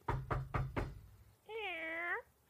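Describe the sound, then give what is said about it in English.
A cat gives a single drawn-out, mid-pitched meow with a clear tone. It follows four sharp, evenly spaced knocks, with a short quiet gap between the knocks and the meow. “That's our cat.”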